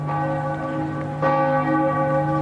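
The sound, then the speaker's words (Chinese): Amiens Cathedral's bells ring out at noon, a loud, sustained metallic hum of layered overtones with a fresh strike about halfway through, ringing alone without voices. “亚眠大教堂正午12点的钟声敲响了”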